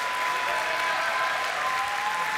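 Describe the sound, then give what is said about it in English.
A church audience claps its hands in praise during a worship service. The dense, continuous applause stays even throughout, with a thin steady tone running faintly beneath it. “If you believe that, give the Lord a hand clap of praise for 30 seconds. Come on, give him praise.”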